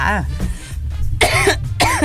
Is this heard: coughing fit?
yes